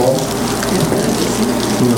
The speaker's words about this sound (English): But so I put liquid nitrogen in this cup.